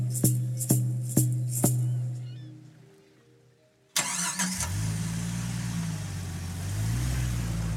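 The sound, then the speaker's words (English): A car drives a bumpy, remote logging road: after a quieter opening with a few faint clicks and a fading tone, a loud, steady rumble of engine and road noise starts abruptly and continues to the end. “Starting from the Comox Valley, we drive a bumpy 5 hours down a remote logging road.”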